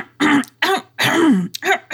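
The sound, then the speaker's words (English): A voice clears its throat in a few gruff, voiced rasps, with a longer, deeper rumble in the middle and two shorter catches at the end. “She cleared her throat.”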